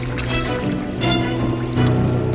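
Water splashes as someone holding a floating log ducks under the surface. A few soft splashes and trickles rise over a steady low rush of moving water.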